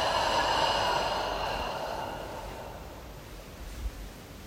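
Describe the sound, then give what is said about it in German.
A deep, breathy exhale during a guided relaxation breathing exercise, a long airy rush that fades away over about two seconds before quiet. “Jetzt wollen wir wieder tief ein- und ausatmen und Anspannung abfallen lassen.”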